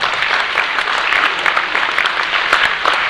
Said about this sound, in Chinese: 来给我一个掌声一下啊！